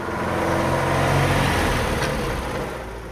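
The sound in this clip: A car races around a town square, its engine a loud, steady roar of broad rumbling noise that swells slightly midway and eases toward the end, with no voices.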